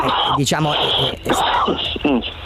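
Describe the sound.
A man who smokes a pack of cigarettes a day coughs and clears his throat in a few rough, voiced bursts with a groaning, moan-like tone.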